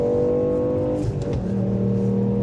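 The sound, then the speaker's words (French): A 200-horsepower rally car engine revs with a strong, buzzing harmonic note. The pitch dips briefly mid-way, then settles at a new steady level, staying loud and continuous throughout. “On m'a dit que c'était une voiture de rallye.”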